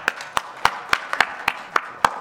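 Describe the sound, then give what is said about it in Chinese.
An audience at a Christian gathering claps hands in a steady, even rhythm, making a quick series of crisp, evenly spaced claps. “四代，又拍手先。”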